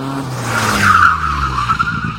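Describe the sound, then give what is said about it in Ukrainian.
A car skids on a road with a loud, rising tire squeal over a low engine rumble, the screech peaking mid-clip and then fading into rough road noise; no talking. “ти ледь не потрапив під машину”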